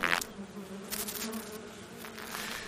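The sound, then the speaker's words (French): Caucasian honey bees, a hardy breed, buzz in a steady drone with a low humming tone underneath, opening with a short, louder burst as one passes close. “C'est une abeille qui est rustique. Elle est rustique, elle n'est pas fragile. La caucasienne a la réputation d'avoir une langue plus longue.”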